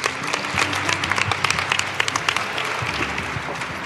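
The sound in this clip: An audience at a chapel service applauds to welcome a speaker, a dense, steady patter of many hands clapping for a few seconds.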